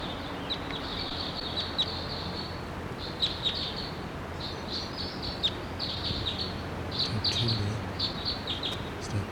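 Bird chittering from a red male perched around lodgepole pine: many short, high chirps and tweets scattered over steady faint background noise.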